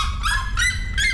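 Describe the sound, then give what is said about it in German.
A red-legged seriema calls loudly in three harsh, strongly harmonic yelping bursts at an even rhythm, each a short sustained cry with no other sound between them. “da liegt der Rotfuß-Seriema schon ziemlich weit vorne. Das klingt so.”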